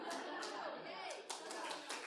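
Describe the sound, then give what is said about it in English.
Congregation clapping at a Resurrection Sunday church service, a fast, even patter of many hands, faint overall, with a voice speaking over it. “I mean, you're not clapping for me, we're clapping for Jesus.”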